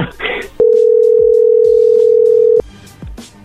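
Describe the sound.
Ringback tone on an unanswered call: one long, steady, mid-pitched electronic tone held for about two seconds, clearly louder than the faint noise before and after it.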